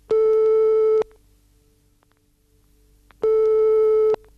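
Ringback tone of an outgoing telephone call: two long, steady, even-pitched tones of about one second each, separated by a long pause, with no talk.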